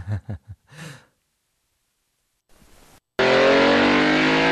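A car drives through Paris, up an on-ramp and down the Champs-Élysées toward the Arc de Triomphe. A few short breathy sounds, a silent gap and a brief hiss give way to a loud, sustained, roaring engine.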